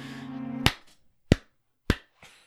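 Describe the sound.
Three sharp, crisp hand claps from one person, evenly spaced and loud, following a brief stretch of a voice speaking; a fainter fourth clap trails at the end.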